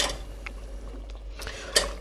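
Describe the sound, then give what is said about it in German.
A fine sieve is set onto a pot for straining sauce: a few soft metallic taps are followed near the end by one sharper, brighter clink. “Ein feines Sieb, wo wir die Soße drüber schütten können. So. Das habe ich beiseite. Das Sieb auf den Topf.”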